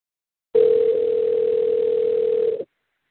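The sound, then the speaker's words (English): A telephone dial tone sounds while a call is being placed. It is one steady, loud, unbroken tone that lasts about two seconds and then cuts off, with nothing else heard. “Calling him right now.”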